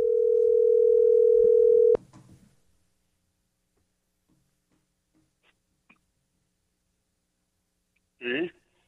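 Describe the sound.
Steady telephone dial tone, a constant mid-pitched hum lasting about two seconds, cut off by a click; near silence follows with a few faint ticks, then a short burst just before the end.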